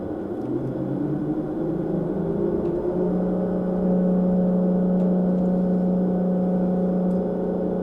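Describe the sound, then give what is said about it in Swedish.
Simulated engine of a driving simulator accelerating: a low, fairly quiet drone whose harmonics climb in pitch over the first few seconds, then settle into a steady hum, with no talk. “Nu tar vi och testar och gasar upp lite här.”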